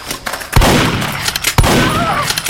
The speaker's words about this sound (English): Just a grenade.